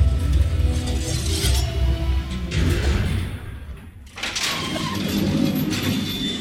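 Elevator doors sliding with a mechanical rumble, a steady broad whoosh that dips briefly near the middle before the noise picks up again. No voices are heard.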